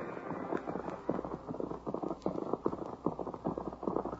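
Hoofbeats of horses ridden through the night by two riders, a steady run of many quick clip-clop hits at a moderate level with no voices.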